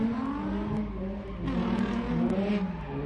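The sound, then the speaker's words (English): Car engines revving at a street race, a loud, steady harmonic engine drone whose pitch swells up and down, with brief sharp noises over it. “All right, more from local. More of this stupid street race crap.”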